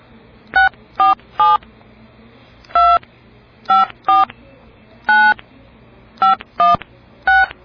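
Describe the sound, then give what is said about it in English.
Telephone keypad touch-tones entering a calling-card PIN: ten short, clear dual-pitched beeps in irregular clusters, with brief pauses between groups over a faint background hum. “Please enter your PIN number.”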